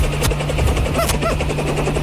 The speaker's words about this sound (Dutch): Dan landt hier een enorme helikopter.